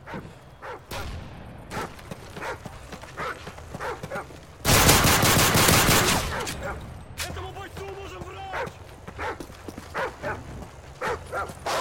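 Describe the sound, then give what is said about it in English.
Attack dogs bark amid gunfire in a video game battle, sharp barks mixed with rapid shots, peaking in a loud sustained burst of automatic fire midway through. “Team, enemy attack dogs are approaching your location.”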